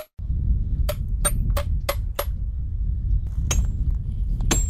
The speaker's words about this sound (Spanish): El sonido del pico y la pala rompe el silencio de la montaña.